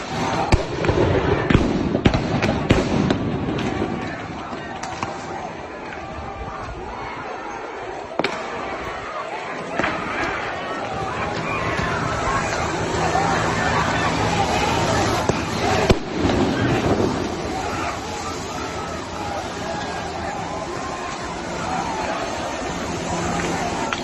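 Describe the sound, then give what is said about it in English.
Rubber bullet guns fire at protesters: many sharp pops and bangs come at irregular intervals through a dense, continuous crowd din with voices. “you could hear them firing now their rubber bullet guns”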